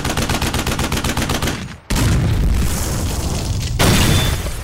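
Grenade explosion sound effect: a rapid run of sharp, gunfire-like pops leads into a loud blast whose deep rumble sustains, and a second heavy boom follows. The effect is loud throughout, with no voices.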